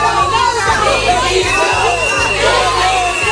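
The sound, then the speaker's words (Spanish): Emergency doctors and other protesters boo a visiting minister in Ceuta: a loud, continuous crowd noise of shouting and jeering. “Esos abucheos, no de cuatro exaltados que pasaban por ahí, sino también de sanitarios que llevan más de dos semanas dejándose el pellejo en el hospital de Ceuta”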